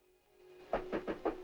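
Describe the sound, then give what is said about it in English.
Knuckles knock on a doctor's office door off a wood-paneled corridor: five quick, quiet raps in a fairly even rhythm. “She nods, and he knocks on the door.”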